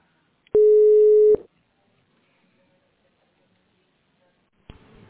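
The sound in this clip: A telephone line tone sounds during a call transfer. It is one steady, mid-pitched beep held for almost a second, followed by near silence and then a brief burst of noise at the very end.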